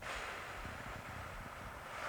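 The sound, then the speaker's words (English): A slow, controlled exhaled breath, pushed out as if fogging up a window: a soft, steady, wind-like rush of air that continues evenly for about two seconds with no voice. “Now I'm breathing like I'm fogging up a window for you, so you can hear my breath.”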